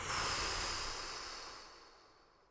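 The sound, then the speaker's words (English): A deep breath blown out through the mouth during a guided meditation: a single soft, airy hiss that begins fairly full and tapers away to near silence. “Big inhale and blow.”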